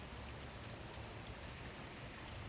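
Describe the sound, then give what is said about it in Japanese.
Fine, steady rain falls without pause: a soft, even, continuous hiss of small drops that stays faint and unchanging throughout, with no voices. “さらさらと絶え間なく降りしきる細い雨”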